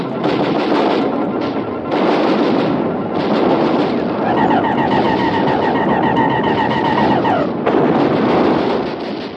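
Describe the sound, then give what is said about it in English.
Artillery batteries firing in a radio drama battle scene, a continuous rumbling barrage of heavy blasts with a high whining tone through the middle stretch. “All batteries, repeat fire!”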